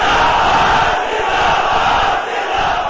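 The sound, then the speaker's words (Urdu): Many voices at a religious gathering shout a final slogan together. The crowd makes a loud, sustained roar that holds at an even level for a few seconds. “اس نال آخری نعرہ لا کے پھر گل مک گئی”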